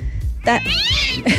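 A cat meowing sound effect, with short cat cries around a drawn-out meow whose pitch rises and then falls. The meowing is clear and fairly loud over a low background.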